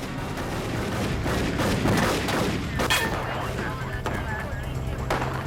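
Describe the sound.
Gunfire in a shootout between police officers and armed suspects trapped in their vehicle. Several sharp shots crack through dense, rumbling noise at a fairly low level, with a clear burst near the middle.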